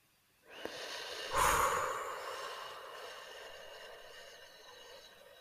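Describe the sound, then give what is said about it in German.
Slow, deliberate breathing during a guided relaxation exercise: a long, airy breath with a stronger sniffing surge near its start, then tapering off softly over several seconds. “Und wieder einatmen. Halten. Und wieder ausatmen.”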